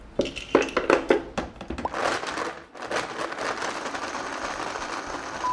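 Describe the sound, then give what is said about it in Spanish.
A blender whirs as it blends a drink of egg and blackberries, with a few sharp crunching clatters at first, then a steady, loud grinding roar. “Ya con todos los ingredientes en la licuadora, vamos a licuar.”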